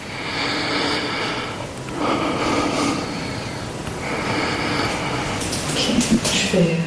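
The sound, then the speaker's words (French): A patient breathes deeply through an open mouth during lung auscultation. A few slow, airy breaths come in a steady rhythm, each a soft rushing swell that rises and fades. “Alors, je te laisse déjà faire l'auscultation pulmonaire complète. Hein. Ouais. Ok. Alors, je voulais juste respirer profondément la bouche ouverte.”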